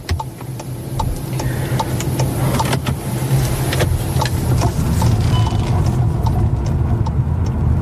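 Car driving along a country road between farm fields, with a steady low engine and road rumble throughout and a regular series of light ticking clicks over it.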